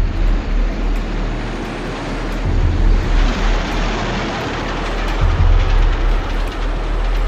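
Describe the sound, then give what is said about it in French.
A train rumbles steadily at a vast railway station in 1920. The deep, broad roar swells and eases a few times, with no voices. “Novembre 1920, une vaste gare, quelque part au nord de la Crimée.”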